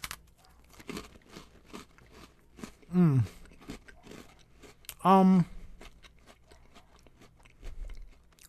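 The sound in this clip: Someone chews a crunchy snack that smells like kettle corn, producing many crisp, irregular crunches and bites. Voices break in twice over the munching.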